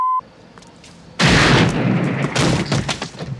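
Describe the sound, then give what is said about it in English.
A loud gunshot in a film scene bursts out abruptly after a short high tone and a quiet stretch, its blast spilling into a dense, rumbling decay that swells again before fading. “That's the sound of you shooting him.”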